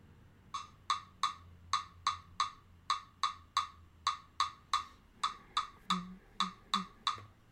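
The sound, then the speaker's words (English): A metronome app clicks in seven-beat groupings split two, two and three, giving many crisp, fairly high clicks in an uneven repeating pulse with no voices. “Now there's a way to get this rhythm pattern on a metronome. I use an app called Pro Metronome, and if you set the subdivision to 14 beats per measure, you can do groupings of 2, 2, and 3 to split up the measure.”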